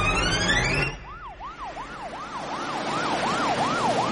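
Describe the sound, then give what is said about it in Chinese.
An ambulance siren sounds as the vehicle arrives at a hospital and heads for the emergency building. A rising tone gives way to a rapid, repeating rise-and-fall wail over steady vehicle noise. “救护车驶入医院大门，直直地驶向了急诊楼前。”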